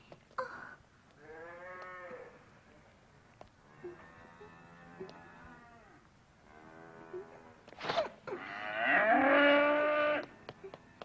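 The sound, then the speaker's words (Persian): A cow mooing after its tail is pulled: several drawn-out lowing calls at moderate volume, the final one the loudest and longest. “بازم که تو دوم گاوو گرفتی و کشیدی؟”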